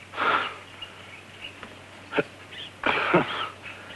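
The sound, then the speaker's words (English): A stricken man draws a few deep, wheezing breaths, with a raspy, airy inhale at the start and more breaths near the end over a faint, low steady hum. “They watch intently as a stricken man takes a few deep breaths.”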